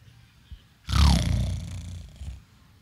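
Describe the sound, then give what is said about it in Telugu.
Human voices imitating a lion's roar: one loud, rough, growling roar held for about a second and a half, then a shorter grunt-like burst. “ఎలాంటి సింహం అయినా గజ్జించే సింహం ఎక్కడ ఒకసారి సింహంలాగా అరవండి”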